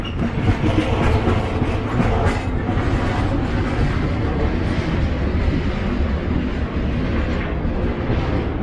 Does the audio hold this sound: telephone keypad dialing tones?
no